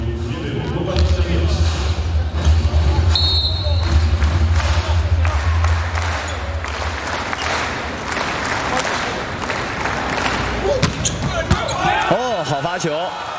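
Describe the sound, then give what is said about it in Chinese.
A substitute server in a men's volleyball match with China's team serves for a direct point: sharp thumps of the ball ring out over arena crowd noise and clapping while a commentator talks. “杨宝奇上来替补发球。”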